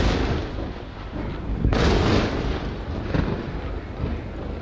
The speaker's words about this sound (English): That's the sound of explosions and now sirens there over Haifa in northern Israel overnight.